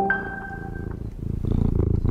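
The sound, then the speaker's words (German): A domestic tomcat purrs in the British prime minister's residence, a low, steady, rhythmic rumbling pulse that grows louder and denser toward the end, with no voices. “Na, da schnurrt Larry, der Hauskater im Regierungs- und Wohnsitz des britischen Premierministers.”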